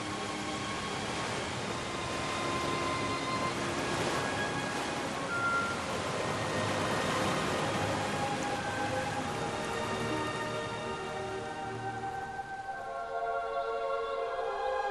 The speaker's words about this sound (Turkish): Hop. Şelale.